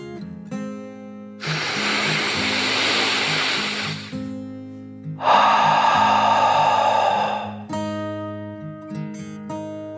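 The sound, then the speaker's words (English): A narrator's voice imitates a deep dragon breath, with a loud rushing inhale followed by a long, forceful exhale, both over soft, steady background music. “Luna took a deep dragon breath in and out.”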